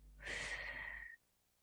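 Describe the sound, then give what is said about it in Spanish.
Breath pushed out through the mouth during a breathing exercise: one long, airy exhale of about a second that holds steady and then stops abruptly, leaving near silence. “Presionamos. Tomamos aire. Retenemos. Por boca. Sacamos aire.”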